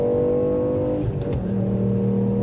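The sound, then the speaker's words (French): A rally car engine of 200 horsepower revs in a driving video game. The loud, steady engine drone dips in pitch midway and then settles into a lower, continuing roar, with no voices. “On m'a dit que c'était une voiture de rallye. Donc j'ai spot tout. Allez. Oh, 200 chevaux, c'est un peu léger, quoi.”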